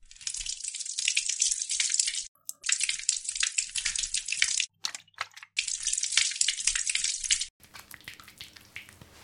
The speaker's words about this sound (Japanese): 頭はこの木の煮汁で洗うんですよ。ちょっと上向いててくださいね。